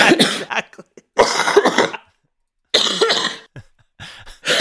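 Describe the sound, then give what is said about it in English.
Coughing and throat clearing in a few harsh, rasping bursts, each lasting under a second and separated by silent pauses. “Do you need to clear your throat”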